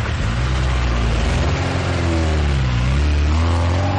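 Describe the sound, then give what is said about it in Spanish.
A car driving through city streets, its engine droning loudly and steadily, the engine note easing down and then climbing again as it revs. “Al día siguiente conduce por la ciudad.”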